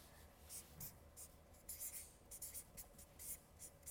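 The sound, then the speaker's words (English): Handwritten notes made with a pen: soft, scratchy strokes come in short, irregular bursts, faint and without talk. “So, what I want to talk about are seven things, and I'm going to just write them down as I go.”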